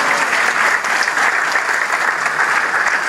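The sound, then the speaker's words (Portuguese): Applause from a church audience honoring a pastor, a dense, steady clatter of many clapping hands that holds an even loudness throughout with no pause and no voices on top. “vamos aplaudir ao Senhor”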